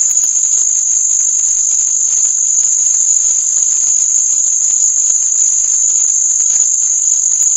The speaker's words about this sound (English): Okay, now I want you to hear 6,900 hertz. There's the tinnitus tone that was in the file. Pumped it up. Listen to this.